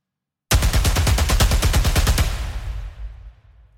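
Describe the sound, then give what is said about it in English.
A machine gun sound effect for an action sound design track fires a loud, rapid burst of many evenly spaced shots for about two seconds, then fades into a rumbling tail. “machine gun”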